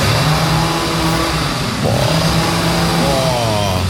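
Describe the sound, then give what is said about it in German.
A chainsaw revs while trees are trimmed, its loud, steady engine drone carrying a strong low tone that dips briefly midway, then climbs again in pitch near the end. “bei mir werden Bäume verschnitten. Alle 30 Sekunden heult er die Motorsäge auf.”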